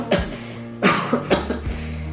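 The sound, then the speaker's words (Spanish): A boy coughs repeatedly: several harsh, fairly loud coughs spread unevenly across the moment, with quieter rough breaths between them. “El niño tosió repetidas veces.”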